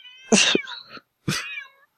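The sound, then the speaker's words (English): Two distinct cat meows, loud and alone, each a strained, wavering cry, separated by a brief silence. “Calling from your house, like 30 some cats. Animal hoarder. Man, 30 cats in your living room with you.”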